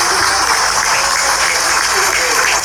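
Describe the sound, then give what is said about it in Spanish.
An audience applauds school officials at a ceremony for a CEPI school, with loud, continuous clapping that holds steady for the whole stretch and may carry a voice within it. “Fuerte los aplausos.”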